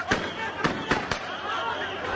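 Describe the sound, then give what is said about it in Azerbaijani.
Police fire guns into the air to halt hundreds of protesters marching on government buildings in Macau. Four sharp cracks come within the first second or so, over a dense, steady wash of crowd noise. “polis göyə atəş açmaqla onların qarşısını alıb.”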